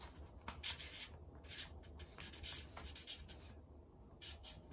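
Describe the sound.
Hand writing: many quick, scratchy strokes in short bursts that start and stop irregularly, fairly soft throughout, over a steady low hum.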